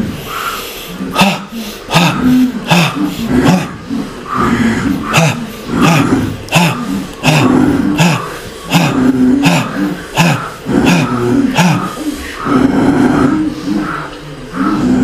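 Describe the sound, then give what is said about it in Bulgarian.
Forceful yogic bellows breathing (bhastrika pranayama): many loud, rapid, rhythmic breath bursts, harsh and snorting, repeat steadily throughout with no pause. “този мощен йогически дъх, бастрика, прана яма. Дишай.”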